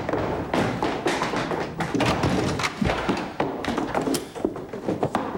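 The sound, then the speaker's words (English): Drawers being opened and shut during a frantic search of an office desk and shelves, with rummaging through papers. Many irregular thumps, knocks and taps overlap in a busy, uneven clatter. “They open and close drawers. They look in the desk, on the shelves, and rummage through papers.”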